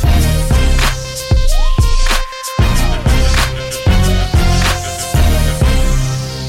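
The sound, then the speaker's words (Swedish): A short custom music jingle made as the signature for a football segment, with steady punchy beats, bright sustained tones, and a brief drop in the middle before the beat resumes. “Vi har skapat en helt egen signatur till dig, Jens, den låter så här.”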